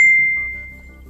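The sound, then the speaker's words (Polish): A Facebook Messenger message notification rings out as a single bright, high chime that fades smoothly over about a second above faint background noise. “Moment, bo tutaj dostaję wiadomości na Messengerze.”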